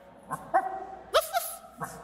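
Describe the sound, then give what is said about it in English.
A human voice imitates a dog barking, a series of short, punchy woof and ruff sounds in an uneven rhythm, several barks in quick succession, mid-pitched and fairly loud. “Dog bark. Woof. Woof. Woof. Ruff.”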